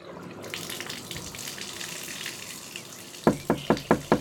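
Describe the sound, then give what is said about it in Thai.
Shower water running while someone bathes, a steady soft hiss of spray and splashing, then five quick, sharp, evenly spaced knocks at the very end. “ซันกำลังอาบน้ำเตรียมตัวออกไปทำงานแบบเช่นเคย”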